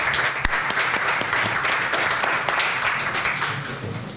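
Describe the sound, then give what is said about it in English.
An audience at a panel event applauds the arriving guests with steady, dense clapping. It stays loud and even and tapers slightly toward the end. “applause, people.”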